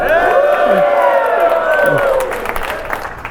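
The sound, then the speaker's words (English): A live audience at the Raising Money Summit in Denver cheers, whoops and claps, the noise loud and sustained, then thinning slightly in the last second. “This is the weekend edition, and we are live in front of a studio audience.”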